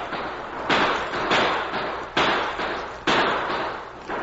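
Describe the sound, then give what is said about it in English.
Gunfire aimed at a wagon during an Apache attack: several loud, sharp shots with noisy tails, partly overlapping, and no voices. “Coming out of the gully, Apaches. Fire on wagon. Open fire on the wagon.”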